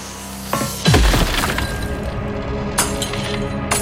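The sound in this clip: A window pane smashed by a rescuer breaking in during an apartment fire, a sharp loud crash of shattering glass followed by tinkling shards and a second smaller burst of breakage.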